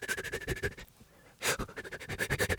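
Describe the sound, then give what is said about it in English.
Rapid, quick breathing demonstrated in fast bursts: many short, soft breaths in a brisk rhythm, a brief pause, one stronger breath, then another quick run of breaths. “So just do five quick breaths”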